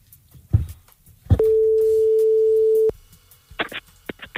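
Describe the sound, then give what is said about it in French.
A telephone ringing tone sounds as a listener is called live on a radio call-in game: one long, steady, mid-pitched tone lasting about a second and a half, with a couple of soft clicks before it and brief sounds after. “On appelle quelqu'un maintenant qui s'est inscrit ou inscrite.”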